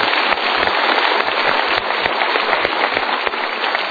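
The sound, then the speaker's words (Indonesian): Applause from a live seminar audience: dense, even clapping that stays loud and steady for the whole stretch, a continuous crackling wash without pauses. “Ya, tapi kita berikan tepuk tangan dulu.”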